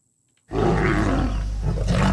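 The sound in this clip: A wild lion in Uganda lets out a loud, deep roar that starts abruptly after a brief silence and sustains as a rough, rumbling bellow to the end.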